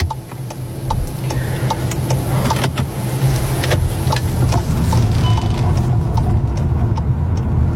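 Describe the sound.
A car driving between farm fields with large sprinklers: a steady low engine and road rumble fills the whole stretch, with regular light ticking on top.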